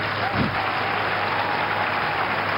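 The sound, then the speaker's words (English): Congregation clapping for the Lord Jesus during a church service: dense, steady applause that holds at an even level from start to finish. “put your hands together and clap for the Lord Jesus.”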